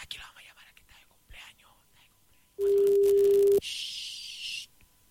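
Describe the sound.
A telephone tone sounds while a call is placed: one steady, loud, mid-pitched tone lasts about a second. Soft whispering comes before it, and faint hiss follows.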